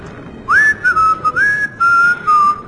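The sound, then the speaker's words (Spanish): A man whistles a short tune while at the helm of a boat speeding out to sea: several loud, clear, high notes with sliding pitches, broken by brief pauses. “Él se puso a silbar.”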